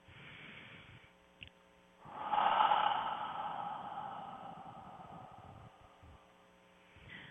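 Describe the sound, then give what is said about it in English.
A deep cleansing breath is drawn in and released as one long, airy rush of breath that swells and then slowly fades, with no talking. “Let's take a deep cleansing breath and release it.”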